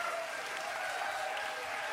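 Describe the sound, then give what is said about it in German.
Applause from a concert audience for an antifascist hardcore band: an even, continuous wash of clapping at a fairly low, constant level with no breaks. “bitte einen riesen Applaus für den antifaschistischen Hardcore.”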